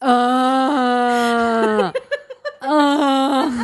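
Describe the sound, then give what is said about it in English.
A voice imitates an ugly groaning noise with a long, strained, buzzy moan whose pitch sags. It breaks into a few short choppy bursts, then the drawn-out groan resumes. “it's this like groaning noise that I can't even, it's like the ugliest noise I've ever heard in my life”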